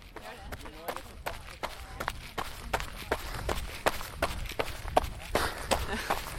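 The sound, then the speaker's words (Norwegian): Footsteps of people running off as they set out for a run toward a river, with many quick, light footfalls in a busy irregular patter that continues throughout. “Jeg tenker bare å filme dere mens dere uh, springer av gårde.”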